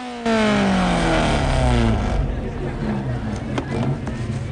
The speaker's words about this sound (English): that they all watch concerned as Johnny drives aggressively up to them.